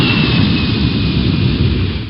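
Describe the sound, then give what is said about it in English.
An airplane taking off at Williamsport Regional Airport: a loud, dense jet roar that holds level for about two seconds, then eases slightly at the end. “Williamsport Regional Airport, cleared for takeoff.”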